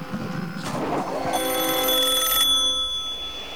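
A telephone beside a hotel bed rings with a bright, steady electronic trill for about a second, following a brief rush of noise, then trails off faintly.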